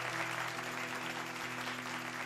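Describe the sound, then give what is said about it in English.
Audience applause, a dense and even wash of many hands clapping that holds at a steady level from start to finish. “Put your hands together now.”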